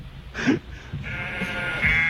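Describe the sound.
Sheep bleat in a novelty animal-sound music recording, a few wavering nasal bleats that rise and fade in turn.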